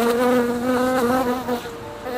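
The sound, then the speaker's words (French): Bees buzz in a steady, loud, rich drone that holds a constant pitch with slight wavering, alone with no voices. “Et les abeilles aimeraient ne plus faire le buzz, mais tout simplement le...”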